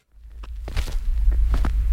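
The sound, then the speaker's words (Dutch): Footsteps of people walking to a grave at Jonkerbos cemetery in Nijmegen: a few soft, irregular steps over a steady low rumble. “Waar lopen we nu naartoe? We lopen naar een graf toe dat we mogen ophalen om te recyclen.”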